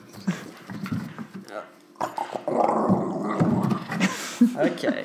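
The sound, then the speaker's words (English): A dog snuffles and sniffs close around a microphone, giving soft, uneven breathy bursts with low growly rumbles mixed in, while people talk quietly alongside. “Dog sniffing around the mic. Smell. She's a good girl.”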